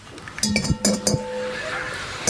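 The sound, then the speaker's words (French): Eggshells clink sharply against a bowl while eggs are cracked and their yolks separated from the whites, giving several quick, bright taps in the first half that settle into a softer, continuous kitchen rustle. “c'est pas facile de mettre des œufs comme ça, de les séparer”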